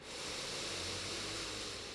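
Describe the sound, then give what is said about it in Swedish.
Faint, deep breath drawn in through the nose during a guided relaxation exercise, a soft, steady airy rush lasting about two seconds that swells gently and then eases off. “Så tar vi ett djupt andetag in genom näsan. Fyller upp bröstkorgen och magen med ny luft och ny energi.”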